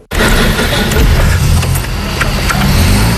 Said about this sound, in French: J'amorce la pompe pour faire rentrer l'essence dans le carburateur et ensuite elle va pouvoir démarrer. Allez, c'est parti.